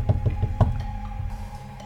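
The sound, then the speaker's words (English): Four quick, evenly spaced knocks on a door, firm and low-pitched, followed by a low steady background hum. “You knock on a door, and someone comes to answer it”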